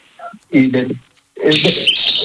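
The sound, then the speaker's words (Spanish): A small pet bird chirps in thin, high twittering bursts, heard mixed in with people talking. “Ese pajarito dice de todo.”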